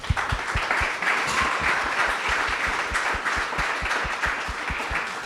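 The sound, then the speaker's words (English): Audience round of applause, a dense and steady wash of many hands clapping that holds at an even loudness for the whole stretch, with no voices standing out. “I'm going to ask for a round of applause.”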